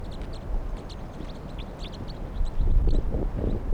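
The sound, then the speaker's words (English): Many short, high chirping calls from a huge wild flock of birds, some landing near a net to forage on grit beside captive birds. The calls overlap over a steady low rumble, and the whole sound grows louder toward the end. “Wild bird. It's a huge flock.”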